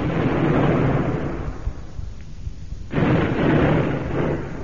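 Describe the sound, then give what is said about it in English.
A ship's gun firing in a radio drama gives a heavy, roaring rumble. It drops away briefly and then surges back as a second sustained blast. “Fire one more over him, Mr. Phillips, just to keep him off while we scarper. Aye, aye, sir. Fire two, Chief. Fire two, sir.”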